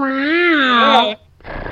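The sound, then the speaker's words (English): A cat gives one long, loud meow whose pitch wavers up and down for about a second, then breaks off, followed after a brief gap by a short, noisy, breathy sound. “Yes, nobody's going to hurt you, little kitty.”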